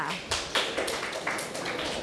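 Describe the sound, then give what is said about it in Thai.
Students clapping in a classroom, a short, uneven patter of hand claps with a few louder bursts, fairly soft overall and lasting about two seconds. “นักเรียนปรบมือให้กับนนทพัฒน์ค่ะ”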